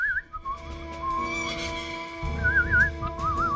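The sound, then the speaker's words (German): A cheerful little tune whistled alone, a clear wavering melody that slides and trills up and down over a faint low background rumble. “Und wir werden dabei hier und da sogar ein fröhliches Liedchen pfeifen.”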